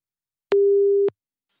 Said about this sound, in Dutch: Nou, gaan we eens even bellen. Kijken of we er aan de lijn krijgen.